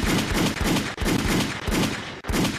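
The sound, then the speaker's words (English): Gunshot sound effects burst out in rapid, loud volleys, with dense bursts of firing repeating in a steady rhythm and brief gaps between them. “Give her some gunshots for that.”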